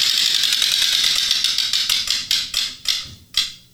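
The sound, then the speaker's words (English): A prize wheel spins with a rapid ratcheting click that slows steadily, the clicks spreading farther apart until a few last widely spaced ticks as it comes to rest. “Let's spin this wheel.”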